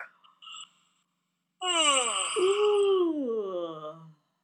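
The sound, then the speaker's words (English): A long, voiced yawn on a breathy K-A-H sound, starting after two brief faint sounds. It holds a loud, moaning tone that rises and then slides down in pitch before fading out. “And we're going to breathe in and out on that K-A-H until we yawn with sound.”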